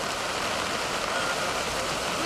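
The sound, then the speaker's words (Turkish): Heavy rain pours down on the flooded streets of Adana, Turkey, a dense, steady hiss that holds at an even loudness for the whole stretch without pause. “Adana'da etkili olan sağanak öğle saatlerinde şiddetini artırdı.”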